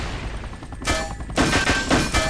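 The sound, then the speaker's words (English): Video-game gunfire as the player shoots down incoming rockets: a few loud bursts of rapid shots over a constant, noisy battle background. No voices. “Getting a little too close there. So I'm using Alt to shoot the rockets down.”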